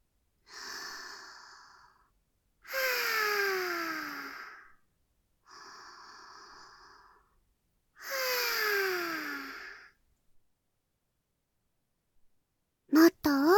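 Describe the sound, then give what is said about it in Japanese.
Deep breathing during a guided relaxation exercise: four long breaths with short pauses between them, where slow inhalations alternate with audible, sighing exhalations that slide downward in pitch. “まずは、私に合わせて深呼吸です。いきますよ。”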